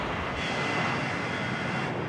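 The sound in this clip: Aircraft engines starting up, heard as a loud, dense, steady roar with a broad rushing hiss that brightens slightly early on and holds evenly, with no voices.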